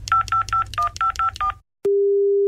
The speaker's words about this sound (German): Moment, ich wähle mal.